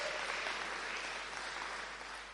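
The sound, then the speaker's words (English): Applause from an audience at a church service: a dense, even wash of many hands clapping that stays fairly faint and steady throughout, with no speech over it. “Yeah, you can clap.”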